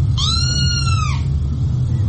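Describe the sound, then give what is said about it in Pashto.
A cat gives a single meow, a sustained tonal cry lasting about one second that bends downward at its end, heard over a steady low rumble with no talk. “د لرګي له ټک سره د میز په منځ کې ناسته زیړه پیشو پاڅېده.”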